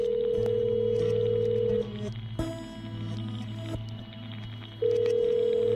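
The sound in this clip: A telephone rings for an incoming call, with a steady electronic tone over a low throbbing hum; the ringing drops to a quieter stretch midway, then returns loudly at the end.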